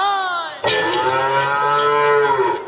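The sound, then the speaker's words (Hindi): A cow moos in one long, loud, drawn-out call, rich in harmonics and steady in pitch for about two seconds before fading, with no voices around it. “अरे गौरी देवी तो गाय है,”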